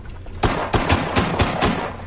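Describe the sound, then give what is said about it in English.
Six gunshots fired at a tossed coffee cup: sharp, loud cracks in quick, fairly even succession, all within about a second and a quarter, over a steady hissing background. “You hit it 6 times before it touched the ground! Sorry, Captain. Sam Cold only gives me 6 shots to work with.”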